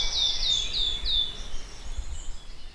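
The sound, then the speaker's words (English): A wood warbler sings four high, clear whistled notes in quick succession, each sliding down in pitch, followed by a soft background hiss. “So that's the epically beautiful and exotic song of the wood warbler.”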